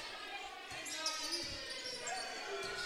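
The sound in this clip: A basketball dribbled on a court during a game, with a few dull, low bounces under steady crowd noise and play-by-play talk.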